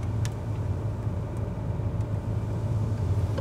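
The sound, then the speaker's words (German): A car drives slowly along a road in Sweden on the way to a campsite, giving a steady low rumble of engine and tyre noise. The drone stays constant with no clear acceleration and no talking. “Jetzt geht's zu unserem ersten Campingplatz. In Schweden fährt man langsam.”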